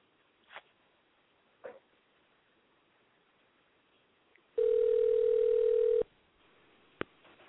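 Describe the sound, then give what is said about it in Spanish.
A telephone call being placed to reach a guest: a single steady electronic ringing tone lasting just over a second, with a few faint clicks before it and a sharp click after it. “vamos a hacer contacto con Kirk. Vamos a ver si nos contesta.”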